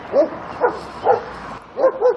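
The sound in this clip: Dogs barking: five sharp, loud barks in an uneven rhythm, with three spaced barks, a short pause, then two close together.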